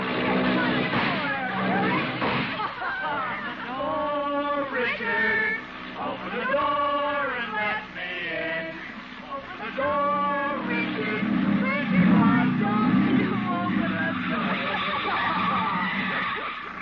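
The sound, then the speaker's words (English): Tires squeal and an engine drones as a hopped-up jalopy hot rod drives and skids. Several loud, wavering screeches rise over a steady, continuous rumble. “She is sitting in the front seat of a hopped-up jalopy, or hot rod,”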